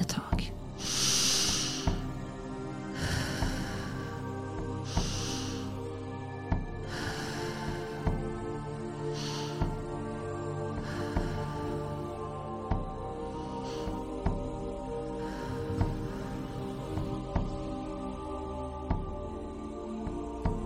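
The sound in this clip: Deep, slow breathing during a guided chakra meditation: a long series of airy, hissing inhales and exhales recurring every couple of seconds over a soft, steady sustained drone.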